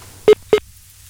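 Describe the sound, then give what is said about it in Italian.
A dropped telephone line during a live radio phone-in gives a disconnect tone of two short, identical beeps in quick succession over a low, faint hum. “È caduta la linea. Non so che è successo.”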